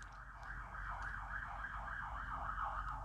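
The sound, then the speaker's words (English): A faint emergency siren wails in Kansas City, its pitch rising and falling in a smooth, regular cycle throughout, over a low rumbling backdrop. “by the way, if you don't know this, I live in Kansas City, so we, have lots of sirens in the background. So if that, I don't even know if the microphone picked that up or not.”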